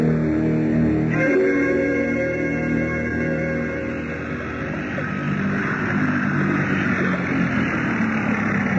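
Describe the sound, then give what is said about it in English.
Motorboat engine running out on the water, a steady droning rumble with a low, even hum that stays at a constant, fairly loud level throughout, without a clear stop. “Why did you cut the motor”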